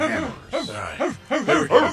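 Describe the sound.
People imitate dogs barking with several short, voiced woofs that rise and fall in quick succession. The voices crowd together toward the end.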